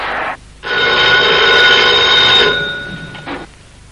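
A telephone bell rings in an apartment in a luxurious building. A loud, sustained metallic jangle lasts about two seconds, with short ring bursts before and after it, and no voices are heard.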